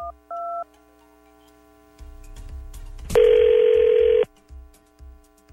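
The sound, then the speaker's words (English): A telephone call is dialed and rings: a couple of short electronic beeps, then quiet low ticking, then a loud tone lasting about a second, followed by softer pulses. “So why don't we call him? We're going to see what we learn from Colton. We'll call him next.”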